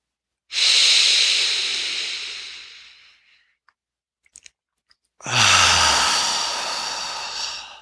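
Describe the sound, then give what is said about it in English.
Audible exhales during a breathing exercise: two long, loud breathy hisses that each fade out gradually, separated by a near-silent pause with a few tiny clicks. “You can make your exhales audible, pulling your belly in, letting your belly warm up.”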